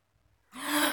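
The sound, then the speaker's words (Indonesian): A single sharp gasp of breath drawn in on waking from a nightmare, sudden and airy, following a moment of near silence and swelling briefly before cutting off. “menghirup nafas, mencoba melupakan mimpinya”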